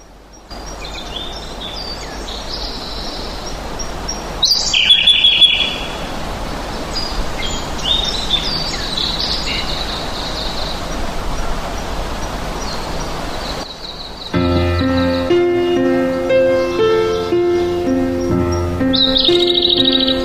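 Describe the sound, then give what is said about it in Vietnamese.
Birds sing over open fields: many high chirps and tweets scattered across a soft, steady bed of rustling noise, growing fuller and louder in the second half. “Những cánh đồng ấy không mang cái từ green trong tên, nhưng lại có màu xanh cho đôi mắt ngắm và tiếng chim hót”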